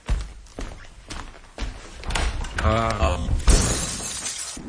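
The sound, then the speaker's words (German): Glass shatters loudly as an armchair is thrown through a window, with a few crashing bursts that spread into a long, breaking clatter. “Ich muss den Sessel durch das Fenster werfen.”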